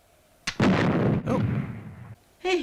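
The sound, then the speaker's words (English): Loud explosions of exploding rock while digging out ore, a few heavy booming blasts in quick succession, each with a rumbling decay, the last one cut short at the end. “Hey, I found some exploding rock! I found some exploding rock!”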